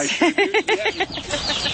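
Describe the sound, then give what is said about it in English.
Baby chickens in a backyard cheep in a quick run of six arching peeps, followed by fainter chirping. “Baby chickens. Oh, I hear them.”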